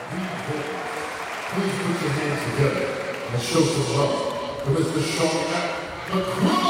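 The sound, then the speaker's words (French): A concert audience cheers and claps under the tent at the Jazz in Marciac festival, a dense, steady roar that swells slightly midway. Someone speaks over the crowd. “Et le public répond présent ici sous le chapiteau qu'on entend gronder à nos côtés.”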